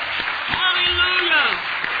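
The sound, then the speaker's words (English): Hands clapping during a worship service: a few spaced claps mixed in with loud voices calling out over them. “Clap your hands to Him and praise Him.”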